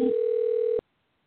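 A telephone ring tone sounds on an outgoing call: one steady, bright electronic tone held for just under a second, then cut off abruptly into silence.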